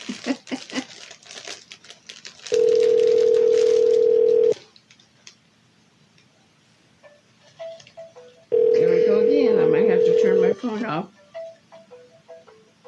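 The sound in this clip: A telephone ringing, two long steady electronic rings separated by a pause of several seconds, with people talking in the gaps and some crinkling.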